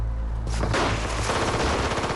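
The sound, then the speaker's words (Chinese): Gunfire in a forest gunfight between guerrilla fighters and guards, with rapid, dense bursts of loud shots that run together like automatic fire and fill nearly the whole moment. “警卫班长眼疾手快地开了枪，沥青的右臂应声绽出了血浆，沥青身后的游击队员也开火”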